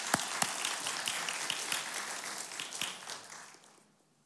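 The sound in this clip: Applause rises in a church to welcome a guest, steady crowd clapping with a few sharper claps standing out, holding for a few seconds before fading away.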